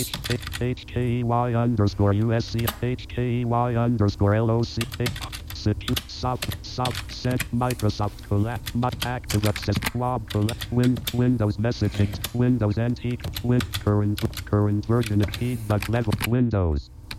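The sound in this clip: Typing on a computer keyboard while editing the Windows registry, with quick clicks of keys pressed under continuous talk.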